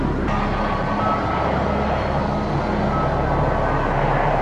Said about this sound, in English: 360 degree turn. Pulling 9G at least, demonstrating the aircraft's complete capability of maneuvering at very high G and very high thrust.